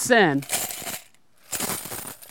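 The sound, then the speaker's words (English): Coins drop into an offering container, clattering and clinking in two separate bursts with a short quiet gap between them. “And you can imagine the sound as all the coins are clicking the bottom of maybe this wooden box.”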